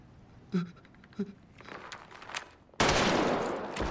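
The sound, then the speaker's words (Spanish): A single loud gunshot, a man shooting himself in the head, bursts in abruptly after two faint soft knocks and a quiet stretch, its harsh noise lingering to the end. “El último jugador se dispara en la cabeza.”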